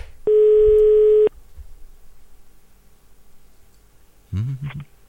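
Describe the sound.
A telephone ringback tone during a radio phone-in call: one steady, low buzzing ring lasting about a second, followed by quiet and then a brief voice at the end.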